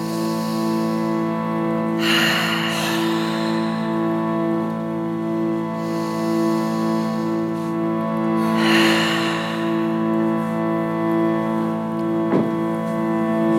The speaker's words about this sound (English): Feel your rib cage expand as you inhale, your belly even. And then as you exhale, just let it all go. A couple more like that.